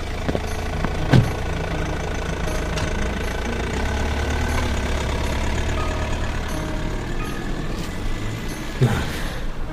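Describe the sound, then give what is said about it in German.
Car engine running as the car drives away: a steady, fairly faint low rumble that holds evenly, with a couple of brief higher clicks. “Sie fahren weg.”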